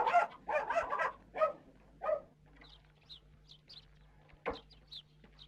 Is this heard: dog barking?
yes